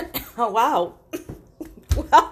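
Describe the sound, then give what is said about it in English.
A single sharp cough bursts out in the middle of someone's speech as they choke on a word, with talking both before and after it. “Wow, I choked on that word, didn't I?”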